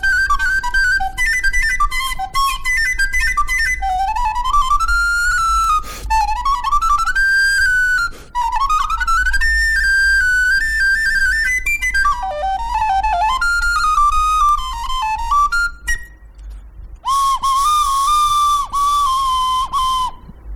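A cheap plastic recorder costing about twenty euros, with a crack in it, plays a bright, continuous melody of quick runs, trills and leaps. There are a couple of short breaks, and it ends on a higher sustained note.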